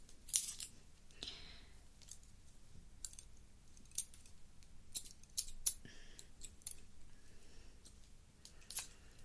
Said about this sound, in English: there's a little thing in the middle which you can control your scissors, actually. I mean, all professional scissors have it.